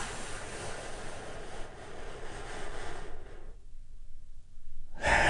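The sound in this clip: A deep breath drawn in slowly, a long, steady airy rush lasting several seconds, then a sudden silent pause before another burst of breath begins at the very end.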